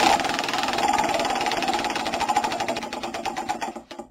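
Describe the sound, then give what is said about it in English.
A prize wheel spins with rapid, steady clicking that continues for several seconds, then gradually slows, the ticks spreading farther apart before stopping. “One final spin of our European Championship wheel. You ready? Here we go. And spin.”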